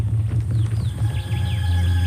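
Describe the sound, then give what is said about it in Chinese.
A bird call used as a signal by a minor Xiongnu leader: several short, high, sweeping chirps over a steady low throbbing hum. “阿斯恰收到匈奴小头目的鸟叫信号，赶紧过去围剿小王子。”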